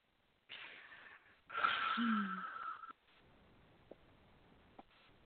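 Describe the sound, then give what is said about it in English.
A deep breath taken on request during a spiritual healing session: a short breathy inhale, then a longer, louder airy rush with a faint wheeze, followed by quiet with two small clicks. “take a breath for me.”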